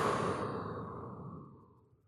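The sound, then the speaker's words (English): A deep breath is released in a long, soft exhale during a breathing exercise, a breathy rush that starts strongest and gradually fades to quiet. “Take a second breath in and release.”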